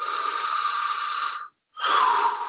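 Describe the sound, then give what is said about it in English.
A deep breath drawn in and then emptied out: two long, airy rushes of breath split by a brief silent pause, the second slightly stronger. “Take a deep breath in and empty out.”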